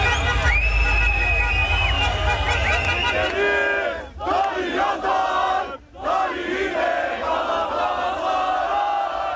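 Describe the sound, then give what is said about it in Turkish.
Galatasaray fans in city squares sing anthems and chant while celebrating a 26th championship with lit flares. The loud, dense crowd singing runs nearly throughout, with brief dips in volume around the middle. “Yurdun dört bir yanındaki Sarı Kırmızılılar meydanlarda toplandı. Marşlar söylendi, meşaleler yakıldı.”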